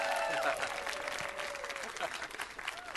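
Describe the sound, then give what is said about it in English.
Applause and cheering from a church audience on the North Coast, welcoming a preacher to the stage. The clapping is steady and dense throughout, with voices mixed into the crowd noise. “Give it up for Pastor Troy.”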